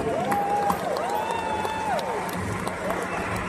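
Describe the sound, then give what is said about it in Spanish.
A metal festival crowd applauds and cheers the band during a live concert. The clapping and crowd noise form a steady roar, with thin whistles gliding above it throughout. “Vamos a dar um aplauso muito forte a toda a banda que viajaram aqui a León para vuestro placer e entretenimento.”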